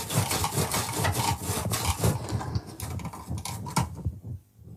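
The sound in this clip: A very sharp knife pushed hard through firm raw fennel gives a dense, continuous crunching and scraping that lasts several seconds, then stops.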